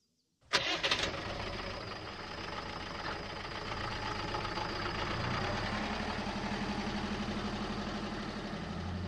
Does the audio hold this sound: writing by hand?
no

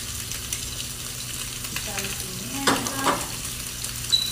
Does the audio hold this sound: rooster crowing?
no

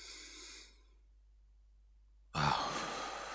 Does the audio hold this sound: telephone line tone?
no

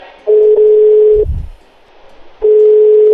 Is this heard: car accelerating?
no

